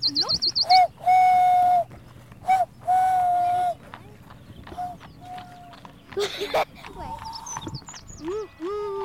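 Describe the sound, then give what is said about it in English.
A person imitates an owl call by blowing into cupped hands across the thumbs, producing several hollow, whistle-like hoots of varying length, some long and held, mixed with people talking. “how you make an owl sound.”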